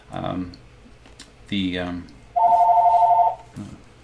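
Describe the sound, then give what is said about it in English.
A mobile phone rings with an incoming call: one steady, bright warbling ring tone lasting about a second, set between short stretches of speech. “who's calling my phone? I don't want to pick it up because it's probably a spam caller, which I get regularly.”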